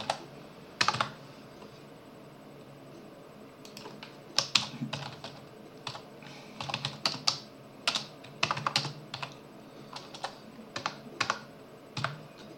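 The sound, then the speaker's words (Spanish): Typing on a computer keyboard while entering a product name into a software installer setup tool: many quick, irregular key clicks in short bursts, faint and sharp, with no voices. “Vamos a escribir aquí Visual C++ 2005.”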